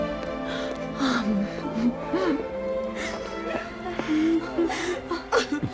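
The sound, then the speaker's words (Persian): A mother crying, with wavering, high-pitched sobs, whimpers and gasping breaths that rise and break repeatedly over a steady background hum. “خواهش میکنم گریه نکن مادر.”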